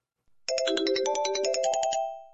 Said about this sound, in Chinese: 不开玩笑了，我接个电话。